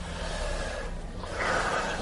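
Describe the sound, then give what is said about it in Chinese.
Loud, deep inhaling by people at a worship gathering: a continuous rushing, hissy breath sound through the whole clip that swells stronger toward the end, with no talk. “敞开你的心，大声的、大力的吸气，大口大口的喝进去。”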